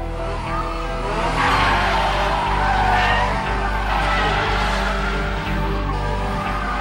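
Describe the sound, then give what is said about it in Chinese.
Screeching tire squeal from a Toyota AE86 drifting through a hairpin bend close to the guardrail. A loud, steady screech runs over a low engine drone for the whole stretch, with no voices. “嗰架八六好犀利啊，好完美嘅漂移啊”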